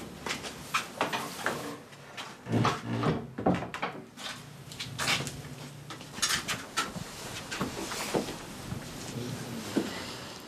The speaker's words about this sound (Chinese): 把门关上。